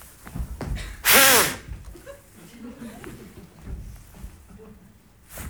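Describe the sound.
A person blows a short, forceful breath into a police breathalyser at a roadside checkpoint, giving one loud breathy burst lasting about half a second, with softer voice sounds before and after it.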